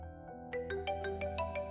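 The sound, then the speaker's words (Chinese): A phone ringtone rings in an office: a melodic series of bright electronic tones starting about half a second in and repeating at a steady pace, with a low steady hum underneath. “突兀的铃声划破寂静的空气，电话响了几声，沈燕”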